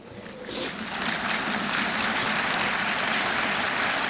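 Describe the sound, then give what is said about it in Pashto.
Applause from members of the European Parliament marking a law's adoption: dense, even clapping that swells over the first half second and then holds at a steady, full level to the end. “د اروپا د پارلمان غړو د چهارشنبې په ورځ د لایې په چکچکو بدرګه کړه.”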